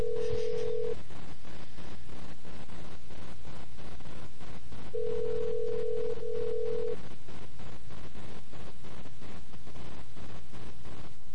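Touch-tone dialing on a payphone: a few short tones with gaps between them, heard over steady, rough background noise.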